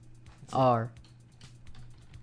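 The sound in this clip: Someone presses keys on a computer keyboard to test them, producing a quick run of light clicks around a brief voice.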